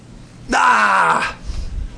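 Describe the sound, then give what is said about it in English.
A voice imitates a groan of disgust: one drawn-out, throaty groan of about a second that rises sharply, holds steady and then trails off, followed by quiet low rumbling. “it's like a groan of disgust”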